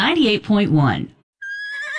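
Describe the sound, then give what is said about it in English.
A horse whinnies loudly, its neigh rising and falling in a few quavering bursts before breaking off, followed by a steady high tone. “The Lone Ranger has tied our horse up to a new stable.”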